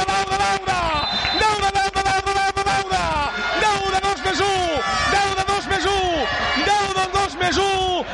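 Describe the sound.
A basketball crowd in the stands chants a repeated "oe oe oe", loud sung phrases whose notes drop at the end of each call, carrying on in waves over the noise of the arena throughout.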